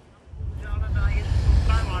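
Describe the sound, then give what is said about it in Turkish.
Wind buffets a camera microphone during an outdoor report on a windy stretch of coast. After a quiet start, a loud, rough low rumble swells and keeps going, with faint voice-like tones above it. “Bir de rüzgar bizim de kulağımıza geliyor kameradan.”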